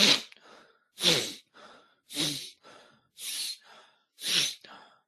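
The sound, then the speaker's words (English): Energizing morning breathing exercise, in through the nose and out through the mouth: five strong, rushing breaths about a second apart, each followed by a softer, shorter breath, with no talking. “breathing in through your nose. And when you take it out through your mouth, you're just relaxing.”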